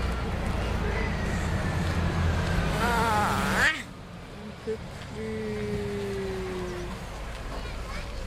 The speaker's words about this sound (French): Voilà, il y a le bus.